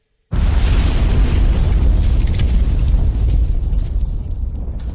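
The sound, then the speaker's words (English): A pipe bomb explosion bursts in abruptly after a brief silence. A dense, loud, low roar follows and rumbles on for several seconds, easing off slightly toward the end. “I threw in a freaking pipe bomb!”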